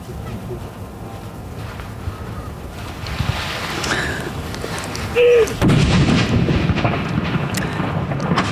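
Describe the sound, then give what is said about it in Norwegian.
Cannon salute fired at a fortress for a royal succession after the death of a king: several deep, heavy booms rise out of steady wind and outdoor rumble, and the later blasts are the loudest. “Ja, det smeller bra her på Akershus festning nå”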